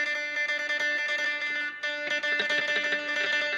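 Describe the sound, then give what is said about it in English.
An electric guitar plays distorted tremolo picking using a bad-habit picking technique. Rapid, buzzing repeated notes run on steadily, stop briefly partway through, then resume with a rougher, uneven attack. “when I tremolo, it sounds like this if you use the first picking style that is a bad habit technique.”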